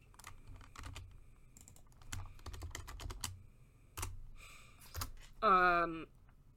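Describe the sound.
Typing on a computer keyboard, with irregular bursts of sharp key clicks scattered across the stretch, and a brief voiced vocal sound near the end.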